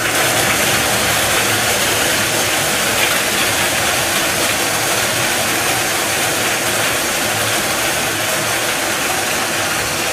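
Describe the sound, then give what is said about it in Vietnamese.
Whirring, rattling churn of five lottery ball cages spinning together at a Vietnamese lottery draw in Kiên Giang, a loud, dense, unbroken noise that holds steady from start to finish with no talk over it. “Tiếp theo chúng tôi quay giải 30 triệu đồng, giải này được quay 5 lồng cầu và quay 1 lần. Mời 5 em quay số.”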